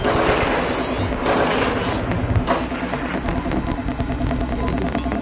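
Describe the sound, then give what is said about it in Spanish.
Gunfire during an armed attack on bank and social security buildings: a dense, continuous rattle of many overlapping shots and cracks over a low rumbling bed, loud and sustained throughout. “Se está haciendo fuego concretamente en contra del Banco Sudamericano y del Servicio de Seguro Social”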